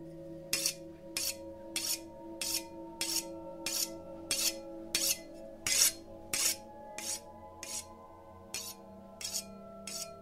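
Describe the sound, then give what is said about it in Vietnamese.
A cleaver knife sharpened against the edge of a plate, producing a long, even series of many bright, rasping scrapes at a regular rhythm over a low, steady sustained drone. “cầm lên một con dao bầu. Ả mài vào cái cạnh đĩa, âm thanh nghe đến giận người.”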